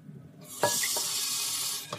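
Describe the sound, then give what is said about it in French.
A drop of water added to thick, viscous caramel in a frying pan bursts into a sharp sizzle after a quiet start, then holds as a steady loud hiss before fading, with a brief clatter at the end. “Alors là, il reste au fond de la poêle le caramel qui est très visqueux. Donc ce que je vais faire, c'est que je vais mettre une goutte d'eau dedans.”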